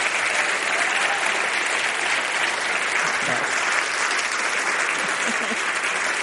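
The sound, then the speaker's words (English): A standing ovation fills an evening event honoring a guest, the audience's applause a steady, unbroken roar of clapping that holds at the same level for several seconds. “For the, our radio audience, we have a standing ovation here.”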